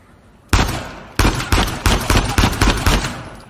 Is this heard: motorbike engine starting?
no